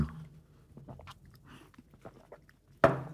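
Someone chews grilled chicken with faint, irregular crunching bites and soft mouth sounds, then makes one louder, sharper hit near the end.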